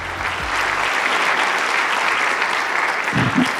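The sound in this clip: A church audience applauding a guest speaker as he is welcomed, a full, continuous burst of clapping that stays loud and even throughout.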